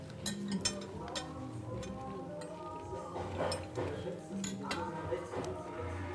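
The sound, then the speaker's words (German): Metal cutlery clinks against dishes in a cafe, with many light, irregular clicks and chimes over a steady background. “Immer dann, wenn wir zu viel Geräusche machen mit dem Besteck.”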